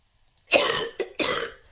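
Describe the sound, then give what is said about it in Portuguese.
A person coughing: two harsh, loud coughs with a brief catch between them, heard alone with no talking. “Era uma pessoa a tossir. Era uma pessoa a tossir. Era uma tosse.”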